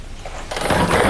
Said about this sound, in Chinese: 那此刻将正式开启本期江苏体彩七位数直播摇奖，请工作人员启动摇奖机。